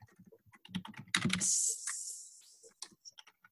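Typing on a computer keyboard: a quick, irregular run of many light key clicks, fairly faint, with a short burst of denser tapping in the middle.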